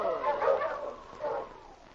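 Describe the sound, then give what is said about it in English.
A dog gives two rough, faint barking growls: a longer burst, a short pause, then a briefer one. “Hey, that dog. You look vicious.”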